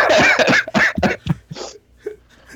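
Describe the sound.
Harsh coughing and hacking from someone with a piece of pita stuck in the throat. A few loud, rough bursts come close together, then fade into fainter, scattered throat noises.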